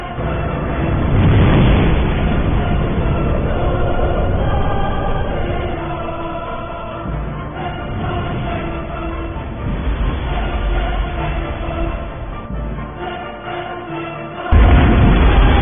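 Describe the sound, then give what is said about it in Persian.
A huge explosion sound effect makes a deep, dense rumbling roar that carries on steadily for about fifteen seconds and surges louder again just before the end. “یک انفجار عظیم در درون جهان”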